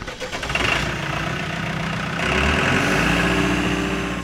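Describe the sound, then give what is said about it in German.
Heavy road-rail excavator engine running at track work: a loud, steady diesel drone with a low rumble that holds throughout and grows slightly stronger partway through. “Wenn die Gleisbauer unterwegs sind, dann nicht alleine, sondern immer mit schwerem Gerät. Zum Beispiel mit Baggern, die auf Straßen und auf Schienen fahren können.”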